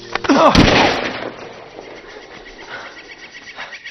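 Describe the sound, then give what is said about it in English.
Rifle gunfire: a loud, sharp burst breaks out near the start and decays over about a second into a long, rumbling tail, followed by faint background noise. “It's a white man with a rifle aiming at you. Listen.”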